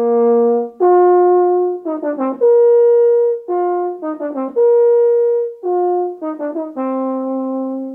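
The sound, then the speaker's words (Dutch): A solo euphonium plays a mellow, mid-range melody with long sustained notes, broken up by a few quick runs of short ornamented notes. The tone is round and strong, with no voices. “En een eufonium klinkt zo.”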